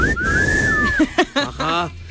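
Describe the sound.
A sustained whistle from a live show's audience, holding one clear, steady pitch for close to a second before giving way to voices.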